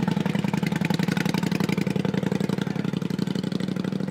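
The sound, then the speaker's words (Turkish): A car engine running with a rapid, even throb, its pitch and loudness staying steady throughout, alone with no voices. “bastı gaza. Hızla ilerliyorlar yolda.”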